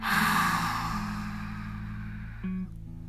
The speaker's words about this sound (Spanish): Inhala, llénate. Retén Exhala por la boca.